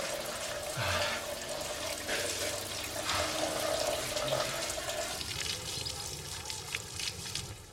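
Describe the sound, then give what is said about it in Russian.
Shower water runs steadily as a man rinses dirt off himself, making a continuous splashing hiss whose texture shifts and thins slightly partway through, with no voices. “Он в душе, смывает с себя всю грязь, затем моет свинью.”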